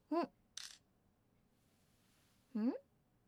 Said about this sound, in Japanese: これ、スライドすればカメラ出るから。ねえねえ、撮って撮って。